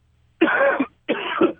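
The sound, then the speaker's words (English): Two harsh coughs from a person, each a rough burst about half a second long, separated by a short pause. They are loud and stand alone without any talk. “sorry, I had to cough.”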